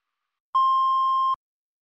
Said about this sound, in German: Bitte sprechen Sie nach dem Ton.